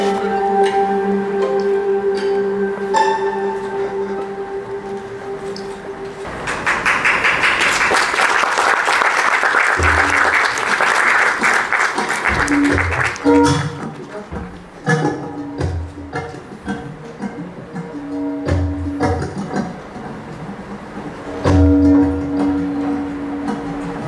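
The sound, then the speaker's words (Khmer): Cambodian and foreign spectators applaud a nimble acrobatic troupe, loud sustained clapping swelling up for several seconds between stretches of tonal music and scattered percussive clanks. “អ្នកចូលរួមទស្សនាដែលមានទាំងជនជាតិខ្មែរផងនិងបរទេសផងបានទះដៃអបអរសាទរកោតសរសើរនៅទេពកោសល្យដ៏ប៉ិនប្រសប់របស់អ្នកសម្ដែង”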